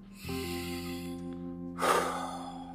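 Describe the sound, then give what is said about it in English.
A single deep belly breath rushes out as a short, airy burst of noise near the end. Steady, sustained musical tones play quietly underneath throughout. “Just a deep belly breath to get everything recentered.”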